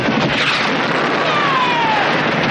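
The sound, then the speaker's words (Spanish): Gunfire and a missile launched from two helicopters during a hillside firefight with Cuban troops in a 1986 war film: a dense, continuous battle roar with a whistling tone sliding downward in pitch midway, no voices. “Los dos bandos intercambian ráfagas de munición cuando dos helicópteros aparecen tras la colina y disparan un misil a los cubanos.”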